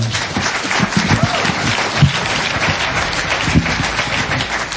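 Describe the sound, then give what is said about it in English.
An audience applauds at a jazz performance that features an alto saxophonist. The clapping is steady, dense and fairly loud throughout. “We won't ask you for more applause.”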